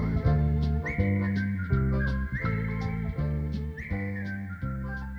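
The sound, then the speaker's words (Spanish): Someone whistles a love song, a bright tuneful melody with repeated upward swoops at the start of phrases, carried over steady instrumental backing. “silbando una canción de amor, silbando una canción de amor”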